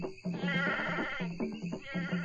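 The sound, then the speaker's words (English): A goat bleats loudly on a jungle trail as it is brought into a trap, giving wavering, nasal cries in close succession with hardly a pause between them. “Bring up the goat, men.”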